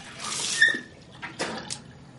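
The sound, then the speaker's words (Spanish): Water splashing in a bathroom sink as someone spits and rinses after brushing teeth with the tap running: a few short, faint splashing and sputtering bursts over a soft hiss. “escupe en el lavabo. Abre el grifo y se enjuaga.”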